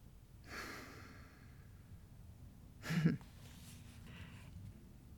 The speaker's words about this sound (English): this is the time to do the breathe in and the breathe out. Let's do that again.